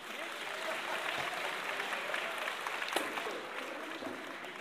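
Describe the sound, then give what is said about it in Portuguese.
An audience applauds a pagode samba group with a steady wash of many clapping hands. The sound is fairly even and moderately quiet, with a few sharper claps standing out now and then. “Um aplauso aí.”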